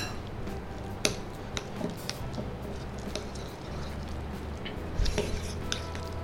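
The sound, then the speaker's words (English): Chopped coriander, green chili, kasuri methi and roasted besan are mixed together with soft, steady squishing and rustling, broken by a couple of brief utensil clicks against the bowl. “a good tablespoon of chopped coriander, 1 small green chili, about 1/2 teaspoon of kasuri methi, 1 teaspoon of roasted besan for the binding. So now I'm going to give it a mix.”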